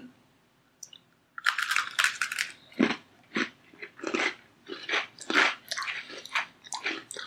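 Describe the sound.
Crunching bites of a mint chocolate: many sharp, crisp bursts in a steady chewing rhythm, fairly loud, with no talk over them.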